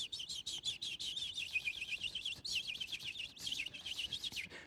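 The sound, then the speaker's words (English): Blue tits calling while walking up and down on wooden decking: a continuous rapid stream of many thin, high chirps, fairly faint, repeating without pause. “little bird, blue tits, literally walking up and down our decking, looking down the gaps in the decking, the heads like this, and they're just making this noise.”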